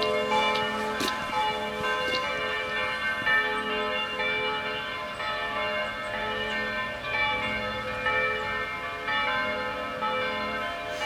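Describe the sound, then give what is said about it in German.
Several bells ring together from a Protestant church in Lindlar. Their overlapping strikes blend into a continuous, resonant peal that stays steady and fairly even in loudness for about eleven seconds, with no talk. “Evangelische Kirche, die Jubilate-Kirche in Lindlar.”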